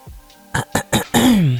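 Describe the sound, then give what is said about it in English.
Throat clearing: three short, rough bursts followed by a longer voiced rasp that slides down in pitch, loud and alone. “I cleared my throat.”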